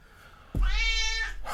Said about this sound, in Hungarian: Ő a földön nyávog.